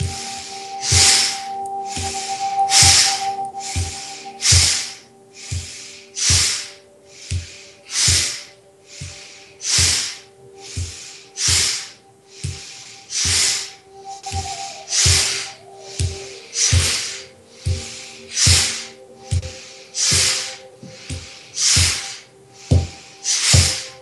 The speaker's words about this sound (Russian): Сделаем обычный вдох, обычный выдох и дышим. Вдох, выдох.